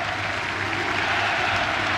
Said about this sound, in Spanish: Y es un minuto con aplauso por lo que vemos ahí del hincha de Unión La Calera.